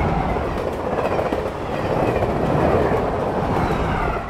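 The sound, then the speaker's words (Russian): Deep, steady rumble of a train carriage passing by a window, with dense wheel clatter that stays loud and even from start to finish. “пришла в себя от грохота пролетающего мимо окна их вагона поезда”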